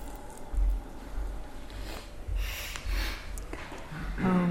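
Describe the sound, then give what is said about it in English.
Deep purification breaths during a breathing exercise: slow, airy rushes of inhaling and exhaling, soft and noisy, with low thumps between them. “Start with the 9 purification breaths.”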